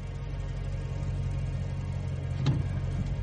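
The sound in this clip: A car drives at night along a rough country track lined with low scrub, its engine a steady low rumble throughout. A single brief knock stands out partway through.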